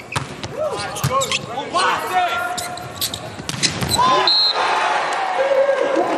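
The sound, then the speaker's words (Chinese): A volleyball is served during a match: sharp ball impacts and squeaks, with a commentator talking over crowd noise. “永贞来发球，”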